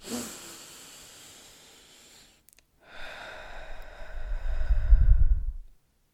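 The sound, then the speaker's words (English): A deep breath taken slowly: a long, airy inhale, a brief pause, then a longer exhale that swells louder and breathier before fading, soft and unaccompanied by talk. “And I'll just take one last deep breath with me.”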